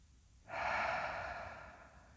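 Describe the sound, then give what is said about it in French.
A deep belly breath: one long, airy, breathy rush of air that rises suddenly, holds steady for over a second, then slowly fades, alone without speech. “Faites sept cycles complets. J'inspire. Je gonfle bien le ventre et j'expire.”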